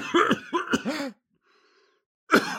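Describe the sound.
A few harsh, throaty coughs come from a person who has just taken a hit from a bong. A short burst of coughs is followed by a quiet pause, then another cough begins.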